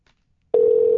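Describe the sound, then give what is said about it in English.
A telephone tone rings out on a call: after half a second of near silence, a single steady, clear tone starts abruptly and holds at one pitch, loud and unbroken, to the end. “Well, let's see if she picks up the phone.”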